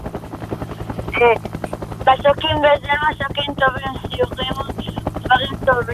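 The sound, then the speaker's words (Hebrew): A helicopter flying in the air gives a steady low rotor drone throughout, with bursts of higher tonal sounds laid over it. “בוא נאמר שמשמיעים לך עכשיו את הצליל הבא של הליקופטר באוויר.”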